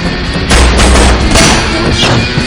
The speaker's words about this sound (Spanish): Igan salta sobre el autobús.